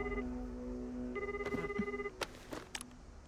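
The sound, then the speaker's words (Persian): A telephone rings in electronic tones: a short burst, a pause, then a longer pulsing ring. Faint knocks and clicks follow near the end. “فوشیگی رو با اولین زنگ جواب بده”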